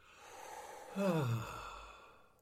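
A single deep breath let out as a voiced sigh whose pitch slides downward midway, with soft breathy air before and after and no speech.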